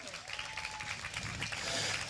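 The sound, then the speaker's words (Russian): A concert audience applauds with dense, steady clapping, fairly faint, holding at an even level throughout. “Ваши аплодисменты!”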